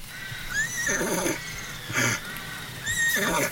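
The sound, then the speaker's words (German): A horse whinnies in a few shrill, wavering neighs, with breathy snorting bursts between them, moderately loud over faint background hiss. “Das ist ja ein Wiehen. Es kommt vielleicht vom Ross.”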